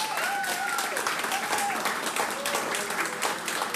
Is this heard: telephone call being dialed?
no